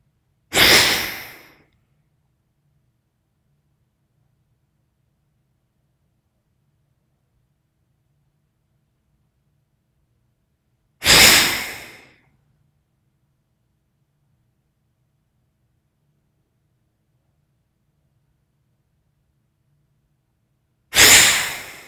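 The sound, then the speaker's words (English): Deep breaths drawn in through both nostrils during a breathing exercise: three separate soft, airy rushes of breath, each about a second long and fading out, with long silences between them. “and then inhale both nostrils, deep breath, and we'll start on side two.”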